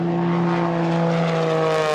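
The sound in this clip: A propeller airplane makes a knife-edge pass, its engine a loud, steady droning hum with layered tones that hold an even pitch from start to finish.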